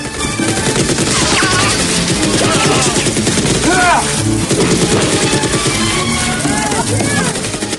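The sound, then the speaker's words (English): Machine gun fire in a Rambo film scene where a gun torn from a helicopter's side mows down guards; a loud, dense, sustained rattle of rapid shots mixed with other film sound and voices. “He lands, leaps out, and rips the machine gun off the side of the chopper. He takes down guards with the machine gun.”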